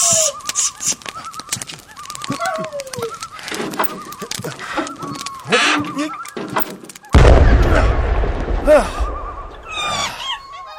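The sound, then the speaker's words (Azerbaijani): A single loud gunshot booms out about two-thirds of the way through, with a low rumbling tail. Before it come many scattered bird chirps and calls. “Vurdum onu.”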